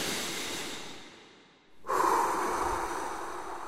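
A deep human breath: a soft airy rush that fades out, a brief silent pause, then a louder, fuller breathy rush that holds steady to the end.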